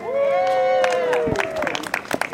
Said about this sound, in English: Everyone who comes out after getting vaccinated, everyone cheers for them.